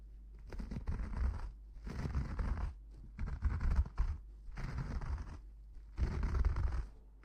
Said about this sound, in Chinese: 给您的脸上已经涂满了泡沫了，现在就开始给您刮胡子了。